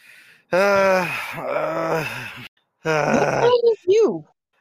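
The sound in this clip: A voice imitates heavy panting after climbing to the top of a flight of steps: one long voiced, groaning breath, then a few shorter gasping breaths, loud and alone.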